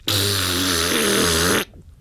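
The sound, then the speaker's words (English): A raspberry blown through a clarinet: one loud, harsh, buzzy blast, about one and a half seconds long, with a low rattling drone that holds steady and then cuts off. “She picked it up and blew a raspberry in the direction of the bowl.”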